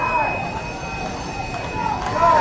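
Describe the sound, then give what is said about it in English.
Rumble of two trains crisscrossing in opposite directions near a ballpark, a steady mid-level rolling drone under a voice talking. “Trains crisscrossing out there now. One going one direction, one the other.”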